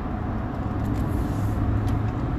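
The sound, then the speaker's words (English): A car driving south on Interstate 476, heard as a steady, loud low rumble of road and engine noise that holds constant without breaks or voices. “I'm driving south”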